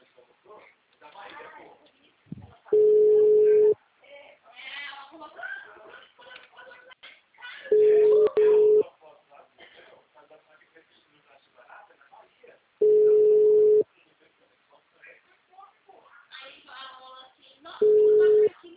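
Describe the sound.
Ringback tone of an unanswered telephone call: four steady, mid-pitched beeps of about a second each, spaced roughly five seconds apart, with a person talking between them.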